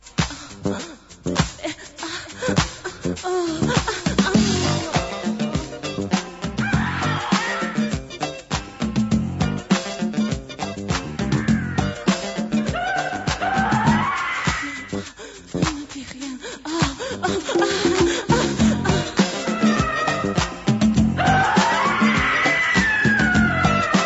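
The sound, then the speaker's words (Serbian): Screaming vocals in a music piece, shrill voices wailing and sliding up and down over a dense, driving percussive backing that stays loud throughout. “Dragi slušaoci, prekidamo na trenutak ovo vrištanje, izvinjavamo se, ovu muzičku numeru”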